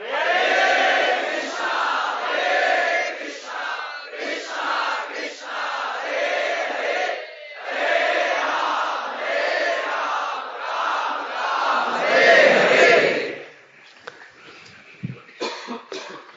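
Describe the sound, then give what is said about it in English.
A group of voices chants a devotional mantra for purification in loud, steady unison. Repeating phrases come in rhythmic waves for about thirteen seconds, then the chanting breaks off into near quiet with a few scattered sounds. “Now we are chanting for purification. But in the liberated state, we chant in ecstatic love.”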